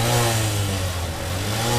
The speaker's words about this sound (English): You could go for a very reliable Japanese bike. It'll tick along fine, it'll give you no troubles, it's quite cheap too. It kind of sounds like this.